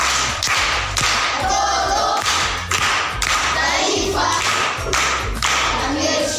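Children clap together for a pupil in a primary school classroom, a dense, steady patter of many small hands sustained throughout without a pause.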